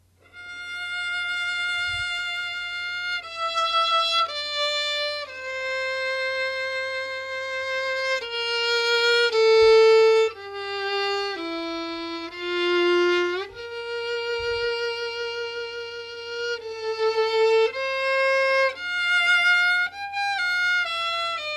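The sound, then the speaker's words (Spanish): A lone second violin opens the second movement of a string piece with a lyrical melody. It plays alone as a single singing line of many sustained, smoothly connected notes, moving up and down through a mid-to-high register. “va a comenzar el segundo violín, es el primero que empieza, y empieza con un tema que es una maravilla de melodía, que suena así.”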